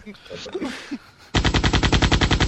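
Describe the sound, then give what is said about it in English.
Submachine gun fire: after a brief, quieter stretch, a loud, steady burst of rapid automatic shots runs without pause to the end. “A Latino Robin Hood who shoots with submachine guns.”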